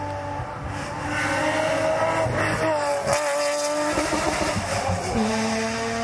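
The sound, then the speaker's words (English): A Porsche engine revs hard against its rev limiter, giving a loud, sustained, buzzing harmonic roar whose pitch wavers slightly as the revs bounce, with no pause throughout. “Hey, like a cab driver on the limiter. Off the throttle. It's a Porsche, by the way.”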